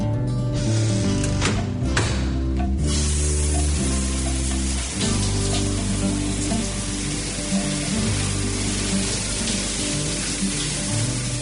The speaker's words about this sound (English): Mom, the shower's cold.